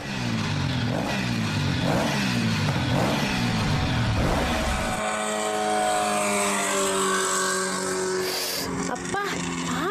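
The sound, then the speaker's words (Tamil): Vehicles speed by fast, engines sweeping up in pitch in a quick series of loud roaring passes, followed by a higher, smoother whining tone in the second half. “எப்படித்தான் இவ்வளவு வேகமா வண்டி ஓட்டுறாங்களோ”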